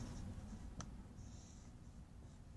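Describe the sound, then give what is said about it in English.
Faint scratching of a pen or pencil on paper as angles are drawn by hand, with one short sharp tap and a longer soft stroke afterward, all quiet against a low steady hum. “That's why I'm going to draw up some angles.”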